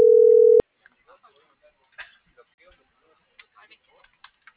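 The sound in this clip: Telephone line tone as a call is dialed: a steady mid-pitched tone lasting about half a second that cuts off sharply, followed by faint scattered clicks and soft, indistinct noises.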